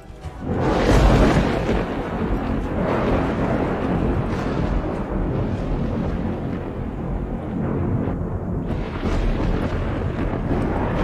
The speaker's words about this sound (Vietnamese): Âm thanh ầm ầm như động đất, hòa lẫn với tiếng sấm, càng tăng thêm sự tức giận của thiên lôi.